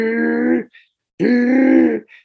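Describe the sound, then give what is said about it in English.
Heavy, voiced breathing from a sleeping man: two long, loud, low groaning breaths, each followed by a short faint rasp. “and that's him. That's just him breathing.”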